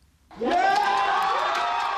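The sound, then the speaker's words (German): Crowd cheering and whooping outside the US Supreme Court in Washington as a same-sex marriage ruling is announced. The cheering bursts in after a short quiet start and stays loud and sustained, with high shouting voices. “Großer Jubel vom obersten Gericht der USA in Washington, als die Entscheidung bekannt wird.”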